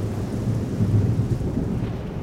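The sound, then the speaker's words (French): Thunderstorm on a wet, stormy London night with an east wind: dense steady rain hiss throughout, with a low continuous thunder rumble that swells slightly midway, alone with no voices. “Il faisait un temps épouvantable à Londres, orageux et humide, de la boue plein les rues. Inépuisable, un vent d'est soufflait nuages et tempêtes.”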